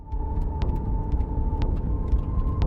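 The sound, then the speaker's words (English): Steady low engine rumble from a long line of cars in a convoy fleeing Mariupol toward Ukrainian-held territory, with a few brief, sharp clicks over the continuous drone. “A long line of cars leads away from the city.”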